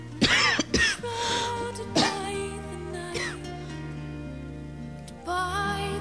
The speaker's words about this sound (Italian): colpo di tosse in diretta. Mi dovete perdonare